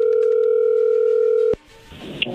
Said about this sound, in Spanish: ahí entró la llamada,